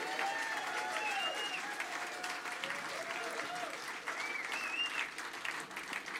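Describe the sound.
An audience applauds to welcome a guest musician onto the stage. The clapping is loud, dense and sustained, with no break from start to finish.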